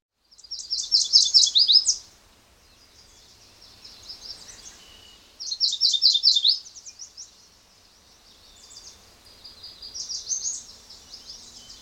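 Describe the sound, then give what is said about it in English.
Upland sandpiper calls: high, rapid trilling phrases, three louder bursts spaced several seconds apart with fainter warbling trills between them, alone over a near-silent background. “Upland sandpiper.”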